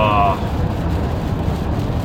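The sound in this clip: An 18-wheeler truck beside a car in the rain, blowing spray onto the windshield: a steady low rumble of road noise mixed with a broad hiss of water, with a brief voice at the very start.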